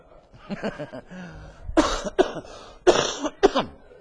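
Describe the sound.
A man coughing as if choking: softer throat sounds give way to a few harsh, raspy coughs and throat clearing in quick bursts, growing louder toward the end.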